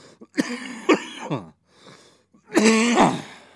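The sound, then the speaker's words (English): Harsh, raspy human coughing: a few short hacking coughs in quick succession, a pause, then a longer, throatier coughing fit. “fucking hate this cough.”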